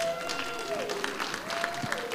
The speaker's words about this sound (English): Can we just give it up for all of our young people here?